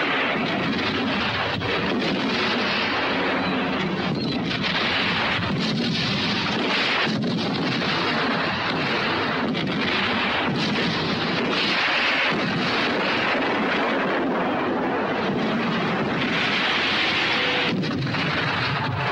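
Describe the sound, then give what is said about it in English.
A battle barrage of tank and artillery gunfire rolls on continuously as deep rumbling booms mixed with crackling bursts, loud and sustained, swelling and dipping in a dense wall of noise without pause. “As the Germans open fire, the tanks start to advance, unleashing a barrage of firepower.”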